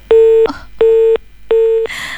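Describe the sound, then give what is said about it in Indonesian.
A disconnected telephone call produces a busy tone on the line, three loud, even, steady-pitched beeps of about a third of a second each, separated by short gaps. “sayang sekali ya, terputus ya sepertinya.”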